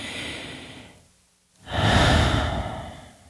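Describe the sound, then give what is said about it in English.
Slow, deep breathing: one soft airy breath fades into a brief pause, then a longer, louder and fuller breath follows and carries to the end. “Taking good, long, deep breaths in and out.”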